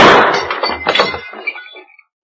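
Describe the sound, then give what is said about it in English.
Glass shattering as a gunshot strikes a light: a sharp, loud burst, then scattered tinkling and clinking fragments that thin out and fade to silence within about two seconds. “I'll shoot the light out. Then rush over and open the door.”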